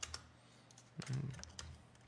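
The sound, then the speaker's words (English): A computer keyboard clacks faintly as a value is typed into a number field in editing software. A few soft, scattered keystrokes are followed by a slightly louder cluster in the middle. “And I know the slider doesn't go that far, so just type it in.”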